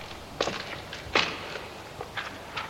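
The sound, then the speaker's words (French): A young boy takes a few soft, uneven footsteps. They are quiet and spaced irregularly against a faint background hiss. “Le jeune garçon fait quelques pas.”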